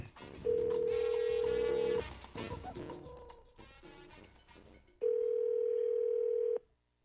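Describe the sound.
A telephone dial tone sounds after a call disconnects. Two steady, loud, single-pitched tone segments, each about one and a half seconds long, are separated by a few seconds of softer, busier sound.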